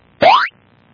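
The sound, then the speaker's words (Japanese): A single springy boing effect marks the roll of a 100-sided die: one bright, rising swoop lasting about a third of a second, alone against near silence. “100面ダイスを1個振る。”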